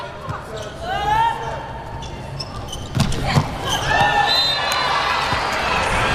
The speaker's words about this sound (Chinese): 唐鑫来发球